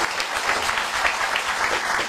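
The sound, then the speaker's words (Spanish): Crowd applause at a political campaign rally in Ecuador's Morona Santiago province, honoring a candidate: brisk, dense clapping from many people, loud and sustained, with individual claps standing out through the steady roar. “Un aplauso.”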